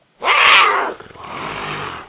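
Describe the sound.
A voice imitates a lion's roar with one rough, growling burst of about a second, trailing into a quieter, lower rumbling breath.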